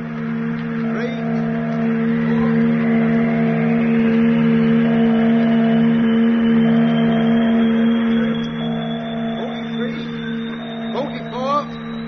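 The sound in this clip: A spacecraft flywheel engaging as a science-fiction sound effect: a steady low electronic hum with a high whine that slowly climbs in pitch, and a few short tonal blips along the way.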